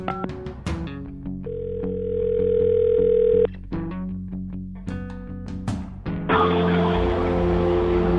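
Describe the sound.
Telephone tones sound while a call is being placed: short pitched beeps, then a long steady tone, then more quick beeps, ending in a dense, noisy stretch.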